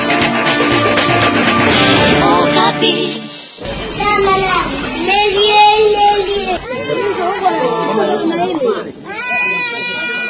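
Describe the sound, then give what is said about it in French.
Children crying in the operating ward of Kalembelembe psychiatric hospital in Kinshasa: several high, wailing cries overlap continuously with whimpers, and voices sound among them. “Le décor est planté au bloc opératoire de l'hôpital psychiatrique de Kalembelembe. Et ces enfants que vous entendez pleurer attendent soit de se faire opérer”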